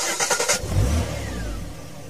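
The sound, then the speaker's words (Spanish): A car engine starts and revs: a few rapid cranking pulses lead into a loud rev, then the engine settles into a steady, rumbling run. “Llegó el momento de prender el motor y dar otra vuelta por la historia del rock.”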